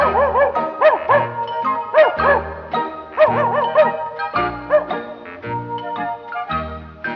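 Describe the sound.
A small pet dog named Bimbo barking in short, high, yapping bursts that come in a quick, rhythmic series over steady tonal accompaniment.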